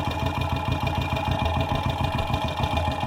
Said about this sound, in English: I'm moving it up the length of the exhaust from the back of the motorcycle up to the front.